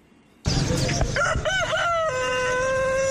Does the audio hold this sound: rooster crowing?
yes

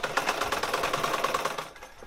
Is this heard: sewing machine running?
yes

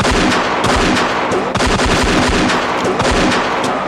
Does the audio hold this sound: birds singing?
no

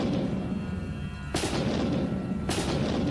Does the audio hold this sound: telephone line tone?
no

